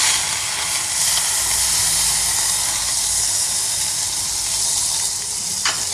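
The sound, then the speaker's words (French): Garlic confits in clarified butter with a steady hiss and sizzle that stays level and fairly loud for about six seconds, with one faint click near the end. “Et là, le but, c'est vraiment de le confire le plus longtemps possible pour garder vraiment que le goût. On va limite oublier un peu la chair. L'ail dans le beurre clarifié.”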